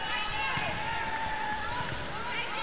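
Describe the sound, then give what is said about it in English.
A volleyball being dribbled on the court floor by a player before a serve in a volleyball match, a few dull thuds under commentary and crowd noise. “Torres dribbles that volleyball only around 10 times before going into a service motion.”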